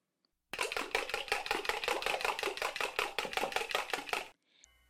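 Eggs are whisked for a chocolate cupcake with many quick, even strokes, a steady rhythmic clatter lasting about four seconds before stopping abruptly.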